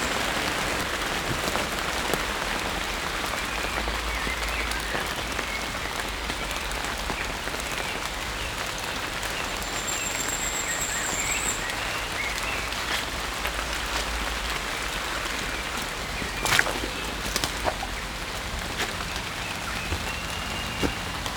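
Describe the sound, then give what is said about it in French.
Rain falls in a forest in Brittany, a steady, dense patter on leaves and ground that holds constant the whole time, with a brief faint high chirp about midway. “premier contact breton, la forêt, la pluie, les arbres et les oiseaux.”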